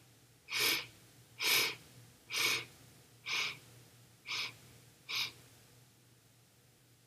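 Deep breathing during a guided breathing exercise: six slow, even, airy breaths in a steady rhythm, each a soft rush of air, with a faint low hum beneath and no talking.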